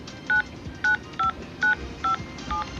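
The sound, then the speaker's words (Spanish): Six telephone keypad tones, evenly spaced beeps of equal length, as a phone number with city code is dialed into a voicemail line, heard over a faint low background rumble. “Ingrese el número del cual desea recuperar el mensaje. Exactamente, ingresa el número de la persona que ha dejado el mensaje. Anteponiendo el código de ciudad.”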